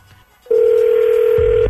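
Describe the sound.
A telephone ringing tone as a call is dialed: after a brief quiet moment, one loud, steady, mid-pitched tone sounds for just over a second, then cuts off with a low thump.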